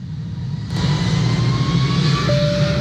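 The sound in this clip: An airplane roars in an airline advert for United flights from Decatur Airport to Chicago O'Hare: a loud, continuous engine drone that swells slightly early on, with a thin steady whine entering near the end.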